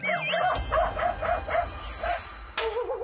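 A dog barks outside a yard feeding spot, giving a rapid series of short, fairly high yips and barks with whimpering tones. A final sharper bark follows after a short pause.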